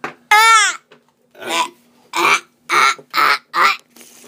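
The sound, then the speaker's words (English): A baby babbles in a series of short, loud vocal bursts separated by brief pauses, with one long, warbling sound near the start. “Make the sound come out of your mouth. Hi, look at that baby do right there.”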